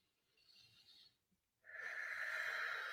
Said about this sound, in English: Can let that go. Just literally exhale it.